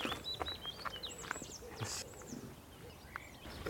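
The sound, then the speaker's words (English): Lapwing calling nearby, several shrill, slurred high whistles repeated in quick succession over a steady background hiss. “Oh, it's really close, this lapwing.”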